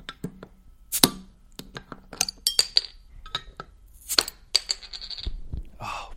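Beer cans being cracked open: sharp clicks and metallic clinks spread out over several seconds, with a couple of louder, brighter pops standing out among them. No voices.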